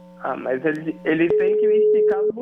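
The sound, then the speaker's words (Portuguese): A telephone call rings out, heard as a single steady tone lasting about a second beneath people talking. “Tá, deixa eu ligar pra ele aqui, peraí, só um minuto.”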